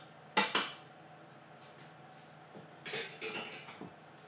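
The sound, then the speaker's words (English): A metal utensil clanks against a pot as butter is stirred through boiled potatoes before mashing. Two quick knocks come first, then a denser run of several scraping clatters, fairly faint and with no talk. “I'm just going to get this butter circulated throughout the potato before I start mashing it.”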